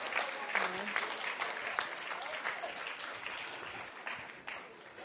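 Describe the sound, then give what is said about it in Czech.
An audience at a Bible-centred gathering claps for a woman called to stand up, representing the Czech Republic. Lively, steady applause runs throughout with speech over it, then thins toward the end. “Zatleskáme všichni, děkuju.”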